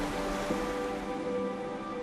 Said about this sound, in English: Water crashes into rocks on the shore.